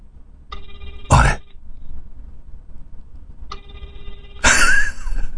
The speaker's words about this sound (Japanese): はい。ポチッと。押しました。かかりましたよ。出るかな？